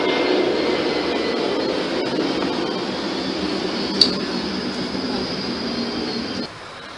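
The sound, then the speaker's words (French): An airplane passes overhead with a steady, broad roaring rumble that holds for several seconds, a brief sharp click partway through, then drops away abruptly near the end. “Oh, l'avion la passe.”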